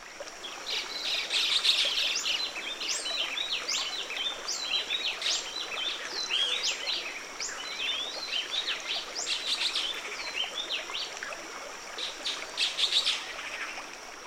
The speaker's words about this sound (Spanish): ¿Puedes oír el Luisito común al inicio? ¿Escuchas el canto repetido del saltapared feliz?